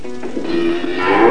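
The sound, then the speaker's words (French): A cow moos at a livestock show in one drawn-out, low, harmonic call that grows louder and brighter toward the end. “Eh bien, les vaches sont à vous. Alors, on va la choisir, cette vache”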